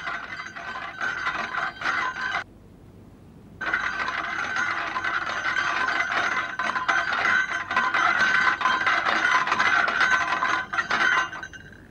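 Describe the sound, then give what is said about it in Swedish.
An old cart-like vehicle being cranked to start, giving a rapid ratcheting, gear-like clatter. A short burst of dense clicking is followed by a brief pause, then a longer steady run of cranking, with no talk. “Ja, jag vet inte hur fort den här kärran går, för jag har aldrig provat den, säger Skalman. Jag ska dra igång den så får vi se.”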